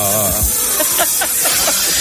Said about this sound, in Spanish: Papá, mira una serpiente debajo de tu premio de orujero mayor.